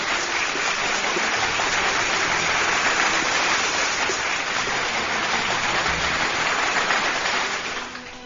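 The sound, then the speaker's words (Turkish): Big round of applause after a poetry reading, a dense, continuous patter of many hands clapping at a steady loud level that fades away at the very end. “Kocaman, kocaman bir alkış.”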